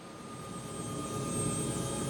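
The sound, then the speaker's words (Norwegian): A Sea King helicopter in flight during a search and rescue operation: a steady, fairly faint rotor and engine drone with a thin high whine that swells slightly midway. “Nå er også Sea King-helikopteret med doktor Eilsen kommet på vingene.”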